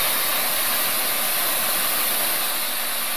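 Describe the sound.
Steady roaring hiss of an oxygen-gas torch flame with the gas turned up, loud and continuous with no breaks or changes.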